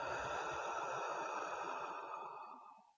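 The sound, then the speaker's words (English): A deep breath, in through the nose and out through the mouth, during a relaxation exercise. It sounds like one long, soft, breathy rush that slowly fades away. “Let's take a deep breath in through the nose and out through the mouth.”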